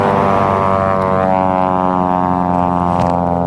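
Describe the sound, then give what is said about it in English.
A loud airplane passing overhead gives a steady, heavy drone with a strong tonal hum that stays loud throughout, with no voices. “That was a loud plane.”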